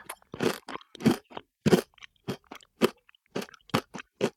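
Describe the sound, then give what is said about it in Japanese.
Crisp crunching and chewing of kohakuto, a crystallized Japanese sugar candy cut into different shapes, heard as many short, sharp bites in an irregular rhythm with quiet gaps between them and no talking. “いろんな形の琥珀糖がある。型に抜いていろんなの作ってくれたんだ。嬉しい。どれから食べようかな。”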